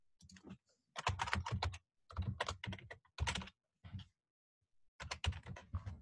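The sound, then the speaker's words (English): Typing on a computer keyboard: quick clusters of clacking keystrokes separated by short pauses, fairly quiet, with no voices. “But let's just actually type into the site directly.”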